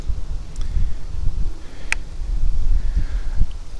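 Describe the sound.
Wind blows outdoors as it picks up, making a low rumbling buffeting with uneven gusts that rise and fall. There is no talk.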